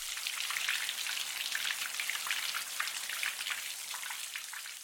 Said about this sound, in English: And here's the sound of rain as white noise.